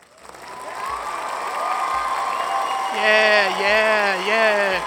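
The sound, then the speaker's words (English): Studio audience applause swelling up from quiet into a broad wash of clapping, with a voice then talking over it. “Our applause sign must be really bright. I'm amazed they can just all stop on a dime”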